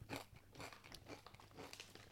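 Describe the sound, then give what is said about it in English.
Someone crunches a sweet chili tortilla chip: several faint, crisp crunches and chewing bursts, close together and at low volume. “Tastes a lot like sweet chili. That's a very good tortilla chip.”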